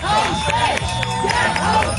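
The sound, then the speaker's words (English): A crowd of hundreds of cyclists cheers and chants at a street protest where they block road crews from setting up pylons. The voices form a dense, continuous, loud roar with shouted calls rising above it. “The crowd cheering and chanting, "Get home safe," as the crews jumped back in their trucks and drove away.”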